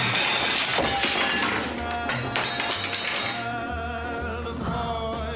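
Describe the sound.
Crockery shattering as a plate of food is thrown against a wall in a film scene: a dense, sustained stretch of crashing and clinking debris with a broad, harsh texture.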